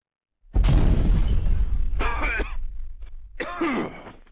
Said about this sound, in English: I can demonstrate for you on the air. I mean, this shit is literally the bomb. Here, watch. I'll take a toke real quick.